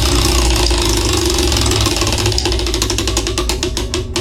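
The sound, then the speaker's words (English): A prize wheel spins with a run of sharp, regular ratchet clicks over a loud, steady rumbling background. “Let's spin this wheel, shall we?”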